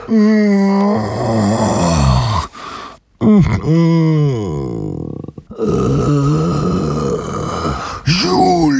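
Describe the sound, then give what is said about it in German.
A long drawn-out, somewhat pitiful groaning moan from a voice, loud and alone, in several sustained phrases with wavering, bending pitch and brief breaks between them. “ein merkwürdiges Geräusch vernahm. Es klang wie ein Stöhnen, ein Ächzen, langgezogen und auch ein bisschen mitleiderregend.”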